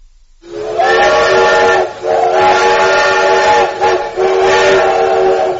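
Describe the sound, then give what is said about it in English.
Train whistle blowing loud and steady, with a bright, harmonic tone held for several seconds. It is broken by two brief dips, so it sounds like three long blasts run close together. “Now, that is the sound of something we all recognize, a train.”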